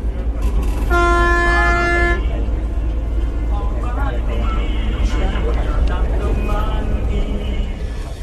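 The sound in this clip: A horn sounds from an Alishan forest railway train as it departs: one sustained, steady multi-tone blast of about a second, over a constant low rumble, followed by murmuring voices.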